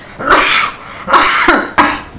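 Coughing from a person: three harsh, rough bursts in quick succession, loud and with no talk between them.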